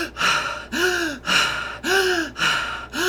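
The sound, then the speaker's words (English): Breath drawn deep through the mouth into the chest in a guided breathwork exercise. A steady series of forceful, gasping breaths repeats at an even rhythm, each one loud and rushing. “all in through the mouth. I'm going to breathe, and I want you to just follow along with me. All right, so we're going to start on the inhale, up in the chest”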